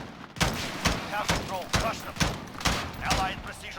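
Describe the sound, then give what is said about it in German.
Rapid gunfire in the video game Call of Duty: a quick, fairly regular series of sharp, loud shots with noisy tails, with someone apparently talking between them. “Wartet mal. Schuss.”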